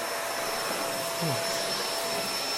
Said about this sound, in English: I wonder if I can remove the vacuuming sounds. That would be like revolutionary. I'll try that in this section only, because I want you to get the vacuum cleaner fill for the most part.